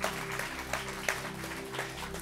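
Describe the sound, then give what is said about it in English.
Audience applause at a church service, a dense, even patter of many hands over sustained low musical tones. “Let's give another round of applause, everybody.”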